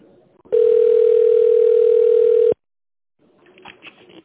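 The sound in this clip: A telephone ringback tone sounds once while a call waits to connect to an operator: a loud, steady buzz at one pitch lasting about two seconds, followed after a short silence by faint, brief voice-like sounds.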